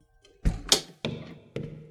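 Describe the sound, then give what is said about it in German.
A door being closed, heard as a few soft, dull thumps and knocks spread across two seconds. The sounds are fairly quiet and there are no voices. “Schließt bitte die Tür hinter euch.”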